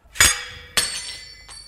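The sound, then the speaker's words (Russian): A glass goblet being smashed: a loud bright crash with ringing high shards, followed by a second sharp smash and a fainter tinkle of settling pieces, with no talk. “если бы я не разбил этот бокал с отравленным напитком миледи”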